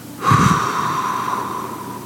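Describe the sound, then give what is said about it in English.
A breathing exercise of inhaling through the nose and exhaling through the mouth: one long, airy breath with a faint whistling edge, rising quickly, then trailing off slowly over about two seconds, heard alone. “Breathe in through your nose. Hold it. Slowly exhale through your mouth.”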